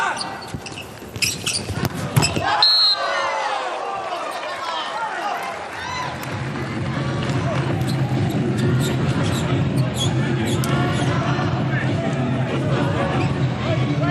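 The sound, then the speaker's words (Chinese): A volleyball bounces a few times before a serve in a match involving the Chinese team, with sharp thuds over crowd hubbub and a voice talking throughout. “卡乔帕来发球”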